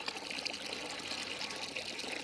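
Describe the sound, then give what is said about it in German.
Water pours steadily from a water pump on wide school grounds, a continuous, even splashing rush with no breaks and no voices. “Eine Wasserpumpe auf dem weiten Schulgelände.”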